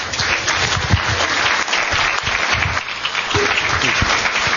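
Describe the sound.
Audience applause welcoming a guest speaker, loud, continuous clapping that holds at an even level from start to finish.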